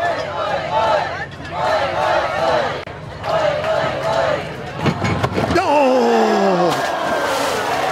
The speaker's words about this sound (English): Why is he saying, why is the crowd chanting, oi, oi, oi? I don't remember that.